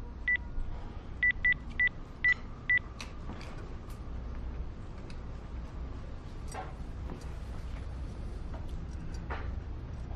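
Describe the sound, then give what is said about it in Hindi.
Dialing a mobile phone: six short, bright keypad beeps in an irregular rhythm, followed by a long stretch of quiet background hiss with faint ticks. “Masood के mobile पर phone करके देखो जरा”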